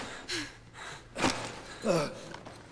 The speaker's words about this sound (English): You have to slow your breathing down. Slow, steady breaths.